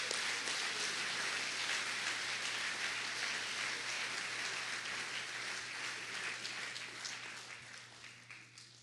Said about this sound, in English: Let's give a warm welcome to Peter. Give him a nice hand.